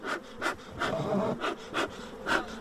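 Honeybees, queens and workers of a calm-tempered breed, buzz at a village apiary in poor weather, a continuous hum broken by recurring louder swells at a fairly regular pulse, with no voices.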